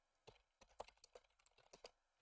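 Faint typing on a computer keyboard: a quick, irregular run of many light clicking keystrokes with brief pauses between them.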